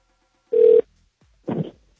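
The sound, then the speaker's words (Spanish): Ringback tone on an outgoing telephone call: two short, even buzzing rings separated by about a second of silence, alone with no talk. “Vamos a ver si nos contesta. A ver, está sonando.”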